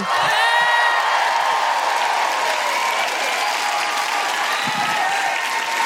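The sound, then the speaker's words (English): A comedy show audience applauds, cheers and whoops as a comedian takes the stage, a loud, unbroken wall of clapping and shouts held at full strength throughout. “Please welcome to the stage with incredible woohooing and a certain amount of trepidation, Alison Spittle!”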